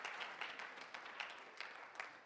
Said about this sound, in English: Let's give the Lord a clap of praise.